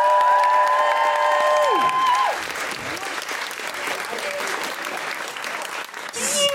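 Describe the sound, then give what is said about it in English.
An audience greets comedian Zoe Lyons with steady, loud applause and whooping. Sustained tones drop in pitch at the start as the clapping carries on. “Put your hands together and make general woo-hooing noises for Zoe Lyons!”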